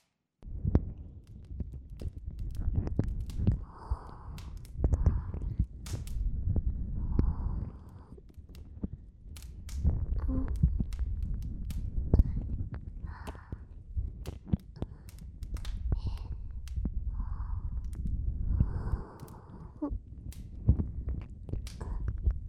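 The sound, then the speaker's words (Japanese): Slow ear massage with oil, fingers kneading the ear rims and backs: steady, close rubbing and squishing with frequent soft clicks and low muffled thumps throughout. “お耳の縁や裏側をゆっくり揉みほぐしていきますね。”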